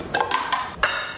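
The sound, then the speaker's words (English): Utensils clink and tap against a bowl while a salmon rice bowl with mayo, hot sauce, soy sauce and avocado is prepared. A few soft, sharp knocks are spread across a quiet background. “That sound you're hearing is the sound from the TikTok. We should describe the bowl a little. It's a very simple combination of salmon and rice, some mayo, some hot sauce, some soy sauce, avocado,”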